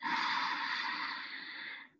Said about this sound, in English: Taking a deep belly breath in